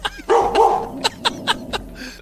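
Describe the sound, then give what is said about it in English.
Dog barking: a whiny, yelping cry followed by four short, sharp barks spaced at a steady rhythm, fairly loud and clear. “That's my dog Ruby. Ruby. We told her go bark at the people.”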